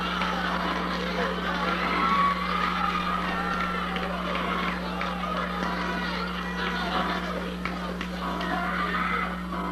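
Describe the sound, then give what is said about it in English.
Audience reactions from a 1979 recording: a continuous wash of crowd noise, murmuring and stirring without clear breaks, over a steady low electrical hum. “And there is audience reaction audio paired to the video from a guy named Kyle Wood, who recorded it in 1979.”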